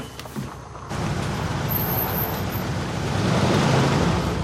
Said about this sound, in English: The brown muscle car pulls up the driveway.